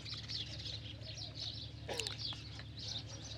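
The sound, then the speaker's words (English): Birds chatter in the shade of trees. Faint, high chirps and twitters repeat throughout over a low, steady background. “the chattering of the birds all around us.”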